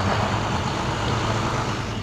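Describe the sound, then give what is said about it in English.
Low engine rumble of a refrigerated truck from a city morgue arriving at a cemetery gate, a steady broad drone that holds at an even loudness throughout. “A refrigerated truck arrives at the gate from the city morgue.”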